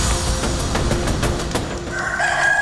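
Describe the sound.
A rooster crows at dawn, its drawn-out tonal call heard within a dense, continuous, noisy background.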